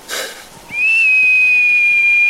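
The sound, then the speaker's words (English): A long, sharp whistle made with pursed lips: a brief breathy puff, then a high note that rises slightly and holds steady and loud to the end, alone without talk. “Then all I had to do was whistle. I knew how to whistle. I put my lips together and blew.”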